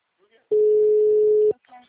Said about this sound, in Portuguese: Não, não tá atendendo. Encaminhada para a caixa postal.